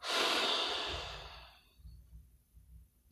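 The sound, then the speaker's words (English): A long, deep exhale during a guided grounding meditation: a loud, airy breath that fades smoothly over about a second and a half, followed by faint, quiet breathing. “Take a deep breath in. And exhale.”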